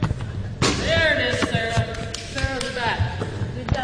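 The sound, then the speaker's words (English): Basketballs are dribbled in a gym during a women's team practice, giving a few dull, low thuds spaced irregularly under continuous talking. “Back in the Brian Coyle Center gym, the Lady Warriors are practicing their shooting, passing, and ball handling. Now, they can finally practice dribbling between the legs.”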